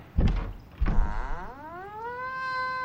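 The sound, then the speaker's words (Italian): A door latch is drawn open at an odd church outside the walls: two heavy wooden thunks, then a long creaking groan that rises in pitch and holds. “Zitto! Qualcuno sta aprendo il chiavistello.”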